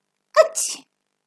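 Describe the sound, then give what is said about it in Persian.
A single sneeze from someone chilled after hiding in a watering can full of water: one short, sharp burst with a breathy hiss at its tail, heard alone against silence. “عطسه کردن همان و لو رفتن جاش همان.”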